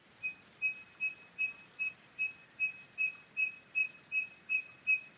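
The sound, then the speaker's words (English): Eastern Yellow Robin repeating a single high peeping note in an even rhythm, about a dozen short, clear, whistle-like peeps of the same pitch, faint and alone. “The Eastern Yellow Robin uses a single peeping note, which it puts together into little rhythms like this.”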